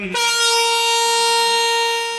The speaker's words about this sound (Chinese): 随着汽笛鸣响，这辆满载近1000吨聚氯乙烯的中亚班列西宁至胡志明缓缓驶出。